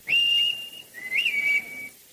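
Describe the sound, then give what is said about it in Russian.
A toy whistle blown by hand, giving two clear high-pitched toots: the first is steady and held, the second slightly wavering in pitch and a bit softer, alone without talk. “свисток. Ну вот, вот теперь ты сможешь свистеть своему Бимбо.”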